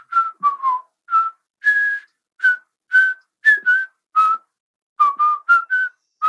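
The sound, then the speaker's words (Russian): A person whistles a cheerful tune while walking a mountain path. Many short, clear notes come alone in a bouncy rhythm with shifting pitch, with a brief pause before the melody resumes. “Насвистывая веселую песенку, Тодд”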